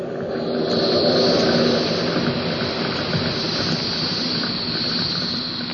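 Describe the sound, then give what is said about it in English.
A carbon dioxide fire extinguisher discharges onto flames with a loud, steady, rushing hiss that holds almost unchanged throughout, without speech. “That's a carbon dioxide extinguisher. Pulls the temperature fast. Smothers the flame.”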